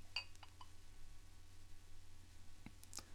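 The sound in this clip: A light, ringing clink of a whisky glass near the start, followed by a few faint small clicks against a low steady hum.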